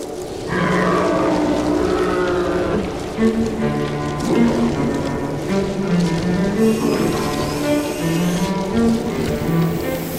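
The Gigue from Bach's Second Suite plays as a lively, bouncing line of quick notes in a low-to-mid register, running steadily and continuously.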